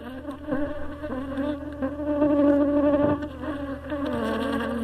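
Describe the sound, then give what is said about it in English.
Honey bees buzz around a beekeeper's hives near Yaoundé as colonies are moved between them. The drone is dense, loud and continuous, with a wavering hum and no talk. “Timothy Awanga, popularly known in Matom as Papa Miel or Papa Honey, moves colonies of honey bees from one of his 30 bee hives to another”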